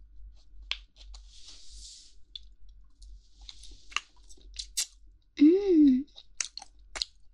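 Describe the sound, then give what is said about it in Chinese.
Close chewing of food with sparse, moist crunches and small clicks, and a brief voiced hum of enjoyment partway through. “好吃好吃，太好吃了，好有嚼劲啊，嚼给你听听”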